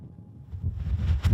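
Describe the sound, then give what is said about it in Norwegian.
A storm wind blows outside in a city, giving a low, rumbling roar that starts faint and swells into louder, buffeting gusts. “Det blåser full storm ute og er tilløp til dommedagsstemning i byen.”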